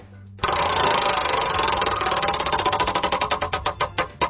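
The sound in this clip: A prize wheel spins on a game wheel, giving off a rapid run of loud clicks that gradually slow and spread farther apart as it winds down toward a stop.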